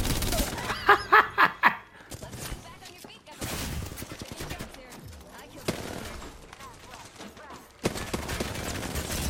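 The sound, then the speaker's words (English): Automatic gunfire from a hard-to-control gun cracks out in a quick run of sharp shots during the first two seconds, followed by dense, rumbling noise that continues to the end. “Whoa! That gun is so hard to control, man.”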